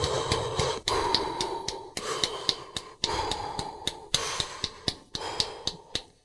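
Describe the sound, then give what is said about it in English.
Rhythmic breathing paced to running steps, with an inhale or exhale every four steps: steady airy breath phases switching about once a second, marked by short, sharp, regular taps, with no talk. “So you would initiate an inhale or an exhale on an every 4 step. So it'd be like this.”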